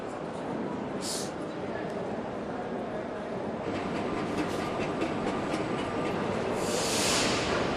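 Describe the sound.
Trains in a station hall: a loud, steady rolling rumble with rhythmic rail clatter, brief high hissing bursts near the start and end, and indistinct voices mixed in.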